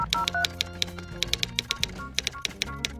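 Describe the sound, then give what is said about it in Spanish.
Typewriter keys clacking in many sharp, irregular strikes with brief pauses between short bursts, standing alone without voices. “el sonido de la máquina de escribir, por ejemplo, ese es un sonido”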